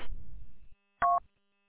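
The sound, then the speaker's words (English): DTMF tone keyed from a phone to link a radio repeater: one brief, clean dual-tone beep follows a short burst of low noise that cuts off, with silence before and after the beep. “So now I can key into Warren, which is linked to W8MAC tomorrow. Do it right from my phone.”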